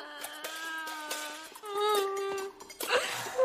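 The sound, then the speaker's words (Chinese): A girl crying in long, high, wavering wails that shift pitch between sobs, ending in a breathier, choked sob. “小妹妹，别哭了，走，咱回去吃饭啊。”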